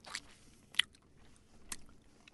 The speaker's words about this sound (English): Well, I'm just going to take a bite.